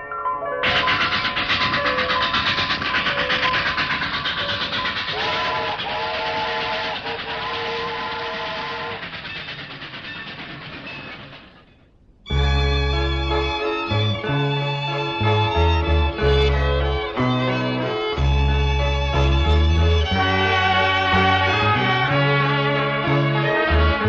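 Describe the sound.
Steam train with a whistle as the morning train departs, a sound effect in a 1974 Vietnamese opera recording: dense rumbling noise with sustained whistle tones for about twelve seconds, then music takes over.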